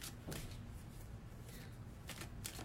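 Faint papery swishes of cards being drawn from a crystal-themed card deck, a few brief soft rustles over a quiet hiss.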